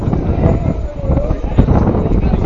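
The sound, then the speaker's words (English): Gusty wind buffets the microphone at a baseball game, producing an uneven low rumble and rushing noise that rises and falls throughout. “As I'm sure you can hear the wind.”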